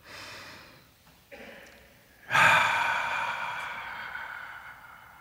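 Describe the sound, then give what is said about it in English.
Deep breathing: a soft breath in, a short catch of air, then a long, loud exhale like a sigh that fades slowly, with no words spoken. “So, if you are ready, let us take a deep breath.”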